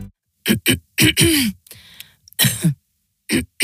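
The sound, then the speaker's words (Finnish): A person coughing dry, irritated coughs in short harsh bursts, several loud coughs grouped in quick clusters with brief pauses between them. “Hei, älä suotta köhi.”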